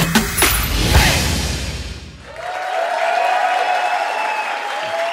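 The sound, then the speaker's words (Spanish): Audience applause, dense and loud, fills the first two seconds, then fades and gives way to sustained tonal sounds that carry on to the end. “Gracias, público. Qué bonito se escuchan los aplausos, de verdad.”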